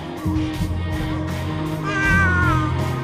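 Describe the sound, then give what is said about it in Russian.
A neighbour's cat meows several times in a row, ending with a loud, drawn-out, wavering cry, over a steady low hum. “Ну так, это соседский кот.”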